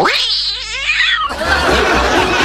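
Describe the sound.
A performer at an animal-imitation contest voices a possessed cat: a long, loud, wavering yowl that rises and bends in pitch, followed by a burst of loud, noisy sound.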